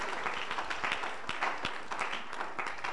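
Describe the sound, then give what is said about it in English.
A church audience claps for a bishop during a sermon, an uneven patter of many hands with a few sharper slaps standing out over a softer, continuous background of clapping. “Just clap your hands for Bishop.”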